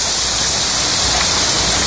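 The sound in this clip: A rain sound effect gives a dense, loud, steady hiss of falling rain. It stays constant and unbroken throughout, with no voices.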